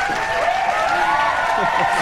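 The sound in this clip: An audience applauds to welcome two performers onto a stage. The clapping is moderately loud and continuous, and a voice carries on over it.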